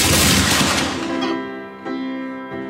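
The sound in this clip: Soldiers fire a volley from their guns: a loud, dense burst of blasts that rings out and decays over about a second, with a steady tonal sound lingering afterward.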